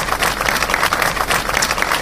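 Crowd applause at a public event marking the International Day against Violence toward Women: a short, even burst of dense clapping at moderate level, with no voices.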